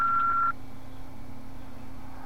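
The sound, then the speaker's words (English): A single short, steady electronic answering-machine beep sounds before a message is left, then cuts off and leaves a low, constant hum. “Please leave your message after the beep.”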